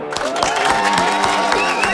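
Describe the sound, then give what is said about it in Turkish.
An audience applauds to send off a guest, a lecturer, with continuous, lively clapping and a crowd murmur holding at a steady, fairly loud level throughout. “Alkışlarla uğurluyoruz Coşkun hocamızı.”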